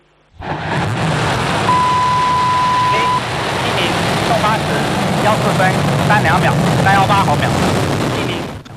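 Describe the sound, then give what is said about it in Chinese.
Long March 7 Y11 carrier rocket ignites and lifts off: a sudden loud onset after a moment of quiet swells into a sustained, broad, rumbling roar, with voices heard over it. “8时14分，长征七号遥十一运载火箭点火起飞。”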